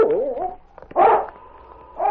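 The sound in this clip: Sled dog King barking and yipping, in loud, separate bursts split by short gaps. The opening call bends up and down in pitch, and sharper barks follow.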